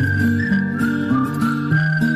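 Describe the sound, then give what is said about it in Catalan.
Several people whistle a cheerful tune together, sustained melodic notes in overlapping lines that step between pitches, steady and fairly loud with no talk over it. “Xiulets per anar marxant. Marxarem xiulant un dia més.”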